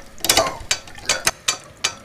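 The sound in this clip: Sharp metallic ratcheting clicks come from a 6 mm wrench working loose a stuck screw. Several distinct snaps arrive in an uneven rhythm, each with a bright, crisp attack.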